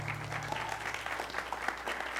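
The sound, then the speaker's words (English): Audience clapping rolls on steadily, a moderately quiet, even patter of many hands with no voices over it. “you can go ahead and clap.”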